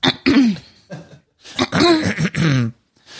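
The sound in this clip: A voice imitates throat clearing as an acted character quirk, with a few harsh, forceful, growling bursts separated by short pauses, loud and alone.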